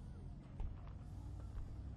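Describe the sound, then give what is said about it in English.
Low engine rumble from cars arriving at Calico ghost town, a steady dull drone over the whole stretch with no distinct passes or horns. “Lots of cars still coming in. I'm surprised this place is so active.”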